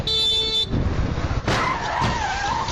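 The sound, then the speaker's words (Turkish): A side-impact crash at a junction, as a car running a red light slams into another car crossing on green, caught on a motorcyclist's helmet camera: a brief tonal blare, then two sharp, loud bangs over road and engine noise. “Bir motosiklet sürücüsünün kask kamerasına yansıyan görüntülerde yeşil ışıkta ilerleyen otomobile kırmızı ışık ihlali yapan araç yandan çarptı.”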